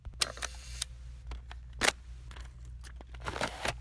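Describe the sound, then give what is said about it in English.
A Polaroid 600 SE camera shutter fires in a few faint mechanical clicks and one louder, sharper snap, quiet and on its own with no talk. “And that is a Polaroid 600 SE camera.”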